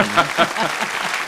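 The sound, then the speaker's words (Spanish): Brief burst of audience applause with voices audible over the clapping. “Ahora sí que hay un aplauso en el mundo, ¿no?”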